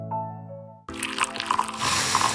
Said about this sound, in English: That's the smell of carefully crafted coffee being poured into your cup